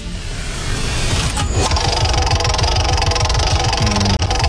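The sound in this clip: A prize wheel spins during a game, giving a rapid, even rattling tick that runs for several seconds and then cuts off abruptly.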